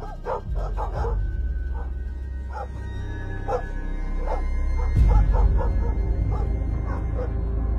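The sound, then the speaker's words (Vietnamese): Dogs bark repeatedly in short, sharp bursts over a low rumbling background, the barks coming in uneven clusters with a few yelps among them. “Mấy con chó nhà mụ sau này nó cứ chĩa sang chỗ cái buồng ở đầu bếp mà nó sủa”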